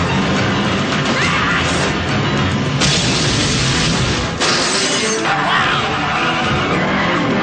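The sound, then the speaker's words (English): A film action scene fills with explosions: deep booms, crashes and roaring engine-like noise merge into a dense, loud, continuous rumble with sharp surges. No voices stand out. “Listen to all those explosions.”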